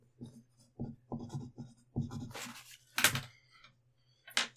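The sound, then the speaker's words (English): Handwriting scratches out a quick note, starting with a few short separate strokes and then moving into longer, louder scribbles with brief pauses between them. “I'm just gonna write down something real quick just so I remember I have it.”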